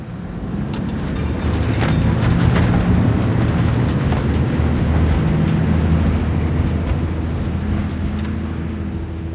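A fire engine's engine rumbles steadily as it drives back to the fire station after a youth fire brigade exercise. The low, even drone holds at a constant loudness for about nine seconds, with no siren.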